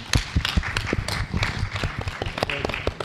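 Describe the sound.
Scattered applause from a small audience greeting panel guests, with uneven, distinct hand claps that come in irregular bursts rather than a dense roar.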